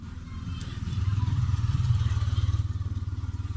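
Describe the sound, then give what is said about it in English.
A tuk-tuk drives past on a Sri Lankan street, its small engine throbbing in a fast, regular low pulse that swells in the first two seconds and then chugs on steadily. “Tuk-tuk just drove past playing some music that you might find in India.”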